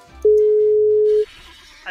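A telephone call's ringing tone sounds as a single steady electronic tone at a low-mid pitch that lasts about one second, then stops and leaves near silence.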